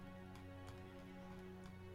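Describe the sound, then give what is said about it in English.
Rain falling as a faint, steady, unbroken hiss that never changes in level, with a constant low hum running beneath it. “Rain buffets down around you.”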